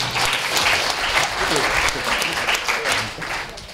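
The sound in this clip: Audience applause at a conference, a dense, steady wash of clapping that holds at an even level throughout and eases slightly at the very end.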